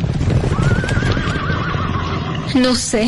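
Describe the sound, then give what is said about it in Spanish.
Horses galloping in the distance, a dense, steady patter of hoofbeats running throughout, with a loud whinny near the end. “¿No oyes? ¿No escuchas a lo lejos un galope de caballos?”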